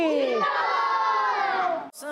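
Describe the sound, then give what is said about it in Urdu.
Children chanting a Dawat-e-Islami slogan together, one loud sustained collective shout with strong, wavering voices that cuts off abruptly near the end. “نعرہ لگانا ہے دعوت اسلامی”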